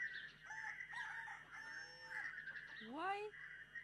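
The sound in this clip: A rooster crows, the clearest call a rising, harmonic-rich swoop near the end after a few shorter calls, set over a steady humming background.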